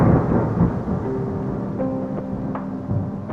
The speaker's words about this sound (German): Über dem Tal zog ein Gewitter auf.